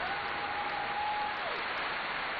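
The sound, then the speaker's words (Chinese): Audience applause breaks out for a singing duo, an even, steady clatter of many hands, with a faint held tone running beneath it that slides down and fades partway through. “感谢每一位好朋友这么激烈的唱， 掌声这么激烈”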